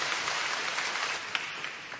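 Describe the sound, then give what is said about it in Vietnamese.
A church audience gives a round of applause welcoming visitors from other parishes. The clapping is a thick, continuous patter at a steady level, with one sharper, louder clap standing out partway through. “chúng ta hân hoan đón chào những anh chị em ấy một tràng pháo tay thưa anh chị em.”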